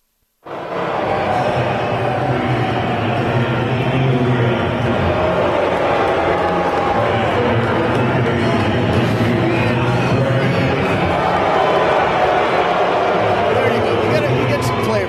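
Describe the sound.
A stadium crowd roars at Angel Stadium as starting lineups are introduced for a baseball game against Houston, a continuous loud wash of crowd noise with voices carrying over it.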